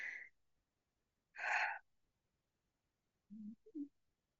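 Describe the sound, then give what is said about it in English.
Breathing from a person during a guided meditation: a short breath, then a longer and louder breath, followed by a few faint, low voiced sounds. “So let's take a breath.”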